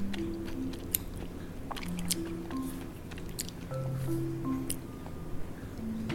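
Someone chews a dish cooked from a mum's recipe, with moist, squishy chewing and small bites going on steadily throughout over a faint tonal background.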